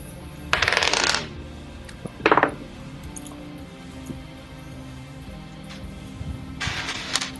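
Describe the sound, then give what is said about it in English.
Dice rolling during a tabletop game. Three short bursts of clattering rattle stand out against a quiet background with a low hum. “I'm gonna have to roll some fucking dice.”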